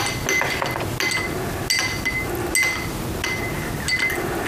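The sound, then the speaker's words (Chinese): Clinks of a spoon stirring American ginseng powder into a drink, many quick metallic taps against the vessel with brief bright ringing, irregularly spaced and fairly loud throughout. “西洋参粉，嗯，全倒进去，嗯，搅拌”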